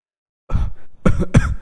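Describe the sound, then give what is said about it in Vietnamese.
A violent coughing fit from someone who has been shoveling snow in the cold. Three harsh, throaty bursts: the first is longer, and the last two come close together. “vừa nói vừa ho sặc sụa”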